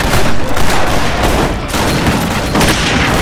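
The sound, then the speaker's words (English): Dense rifle gunfire in a brutal, one-sided firefight between warriors and soldiers, a loud continuous crackle of rapid overlapping shots with no pauses or voices. “The firefight was brutal, fast, and one-sided.”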